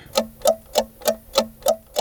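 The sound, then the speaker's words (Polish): A clock ticking seven times at an even, brisk pace, each tick a crisp mid-pitched click with nothing else around it. “Zegar.”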